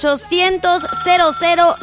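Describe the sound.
A melodic telephone ringtone announces an incoming call to a live radio show, repeating a short pattern of bright, harmonic-rich notes at a steady, fairly loud level.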